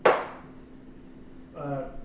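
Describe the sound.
A sharp arrow shot in a tabletop role-playing game: one abrupt, bright burst that fades quickly, followed after a short quiet gap by a brief voice.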